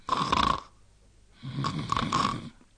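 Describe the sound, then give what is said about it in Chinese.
A voice imitates a child's snoring: two long, rasping snores separated by a quiet pause, the second slightly longer and rougher than the first. “一边站着跟着一边打呼噜”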